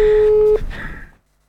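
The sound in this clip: A telephone call tone sounds while a number is being dialed. It is a single steady, mid-pitched tone held for about half a second, then cut off, followed by brief talk.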